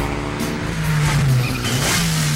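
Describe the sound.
A Mitsubishi Lancer engine revs loudly, a steady low growl whose pitch dips and climbs again over a few seconds, with a bright roar of mechanical noise on top.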